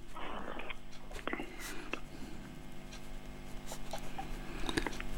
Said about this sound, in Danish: Jeg vet ikke, nå skal jeg bare skrive her.